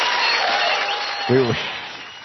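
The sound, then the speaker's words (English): Applause sound effect: steady, dense crowd clapping that holds throughout, with a short voice heard partway through. “you're supposed to play the applause”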